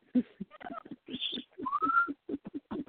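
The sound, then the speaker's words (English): A pet bird whistling in the background, a few short whistled notes, one sliding upward, scattered among quick chirps and clicks at low volume. “Pardon Tony Bird in the background. He's trying to add to the conversation, too.”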